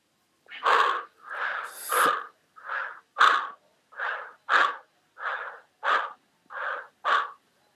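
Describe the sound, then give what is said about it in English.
Heavy, forceful breathing in and out at a healing prayer meeting: eleven evenly spaced rasping breaths, each a short breathy burst separated by brief silences. “Can you breathe in and out 5 times heavily?”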